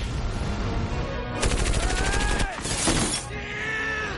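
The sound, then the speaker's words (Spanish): Rapid automatic gunfire aimed at a helicopter in a science-fiction battle scene: a dense burst of fast shots, a brief pause, then a second short burst over continuous battle rumble. “dispara contra un helicóptero”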